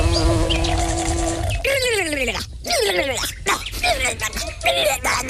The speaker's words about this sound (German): Das ist eine Hummel, wenn ihr was nicht schmeckt. Haben Forscher gerade bei genauer Beobachtung von Hummeln entdeckt, dann schütteln die